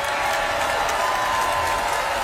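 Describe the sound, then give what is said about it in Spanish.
Audience applause after Donald Trump announces a $5,000 dividend for every adult citizen: a moderate, even wash of clapping that stays steady throughout. “yo encontré que aplaudieron poco para la cantidad de plata que era, ¿no? Poco.”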